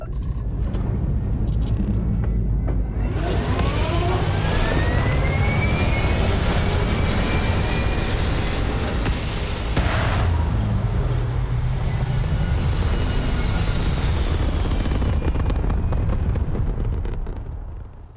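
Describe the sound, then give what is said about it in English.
A starter spaceship taking off from a planet in a space video game: a loud, sustained engine roar with a deep rumble and a rising whine that builds, holding steady before tapering at the very end. “This is the sound of your ship leaving a planet, like the starter ship, mind you. This is the starter ship takeoff sound.”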